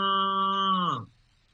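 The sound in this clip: A calf calling to its mother cow: a single long, harmonic moo that holds a steady pitch, then drops and fades away abruptly, leaving near silence.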